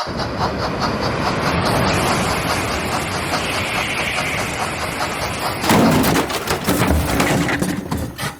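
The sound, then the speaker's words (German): A Transrapid maglev train passes on track 3 at a station: a loud, steady, broad rushing roar that shifts in tone and grows slightly harsher near the end. “Und da überholt ebenfalls auf Gleis 3 der Transrapid 3010 von Shanghai Hauptbahnhof nach Stuttgart 21.”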